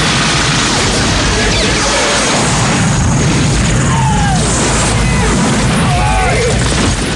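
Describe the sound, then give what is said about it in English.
Mounted machine guns blaze from a helicopter gunship in a Rambo film: a loud, dense barrage of booming blasts and crashes merges into continuous roaring noise throughout. “Rambo and the scorer from the game gallop side by side as Zyson chases them down. Zyson fires mounted machine guns.”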